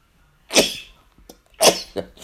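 Two loud, sharp allergy sneezes about a second apart, each a sudden breathy burst that fades quickly, followed by a smaller, softer burst.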